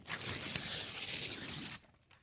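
An envelope is torn open in one long, continuous papery rip lasting nearly two seconds, then the sound stops abruptly.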